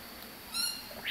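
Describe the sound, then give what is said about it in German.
Birds in a jungle-style aviary tent at feeding time give a few brief, faint squawking calls against a soft background hiss. “Ich verteile jetzt das Frühstück für die ganzen Vögel hier im Dschungelzelt”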